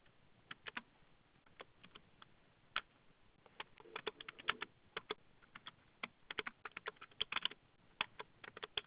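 Someone types on a computer keyboard while entering a password and full name into a sign-up form. Many faint, irregular key clicks come in uneven bursts with no voices.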